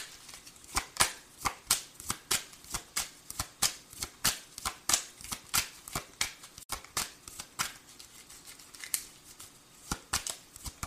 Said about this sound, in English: Can we clarify court legal for Leo, please? May I have a card to clarify, please?